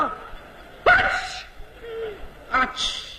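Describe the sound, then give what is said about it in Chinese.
A voice imitates a Beijing-style sneeze: two sharp, breathy vocal bursts with a pause between them, the second one shorter. “北京人打喷嚏。”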